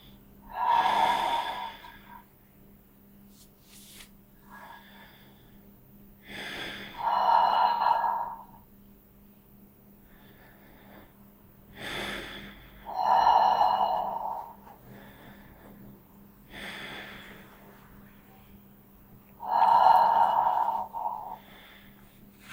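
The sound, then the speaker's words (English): Slow breathing in and out through the mouth, with a relaxed jaw, rises and falls in four unhurried swells of airy breath separated by quieter pauses. “So just gently relax your jaw. And you can just begin to slowly inhale and exhale through your mouth.”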